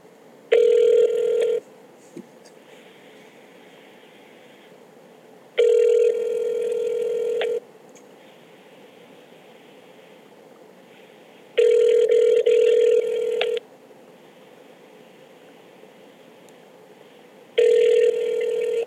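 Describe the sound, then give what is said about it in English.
Ringback tone of an outgoing phone call, four steady two-second rings separated by about four seconds of quiet, the last cut off. “We're calling him now.”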